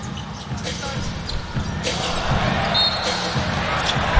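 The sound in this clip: Basketball dribbling during a game, the ball's bounces blending into a steady wash of crowd noise with voices throughout.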